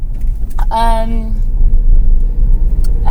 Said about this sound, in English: So we're driving to our spot.